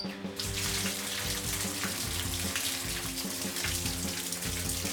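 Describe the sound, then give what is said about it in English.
Ice-cold water runs from a tap into a bath in a steady, full rush that sets in almost at once and holds an even, unbroken level to the end. “That is the sound of ice cold water running into my bath.”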